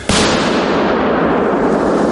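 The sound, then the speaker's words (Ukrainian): An explosive charge detonates with a sudden, loud blast. A dense roaring rumble follows and stays strong for about two seconds. “Подрив! Подрив!”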